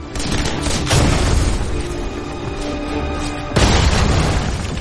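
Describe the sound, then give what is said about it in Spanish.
A grenade explodes in a war drama, throwing sharp tin shrapnel: loud, low booming blasts with rumbling crackle between them, and a second strong burst hitting near the end. “La granada explota lanzando afilada metralla de estaño que corta al teniente coronel.”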